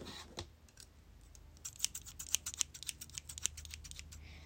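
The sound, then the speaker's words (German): Scissors trim the ends of hair in a calm ASMR session: a soft rustling hiss at first, then many crisp, bright snips in an irregular rhythm, without speech. “Bisschen Spitzen schneiden von deinen Haaren. Heute gibt's übrigens ein kleines Get Ready With Me ASMR. Spitzen schneiden.”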